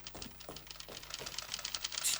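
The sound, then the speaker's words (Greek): Typewriters clatter in an office, with many quick, irregular keystrokes clacking in a fast, uneven rhythm. The sound is fairly faint and heard alone, without talk. “Πόρυβος είναι αυτός. Οι γραφομηχανές, κύριε.”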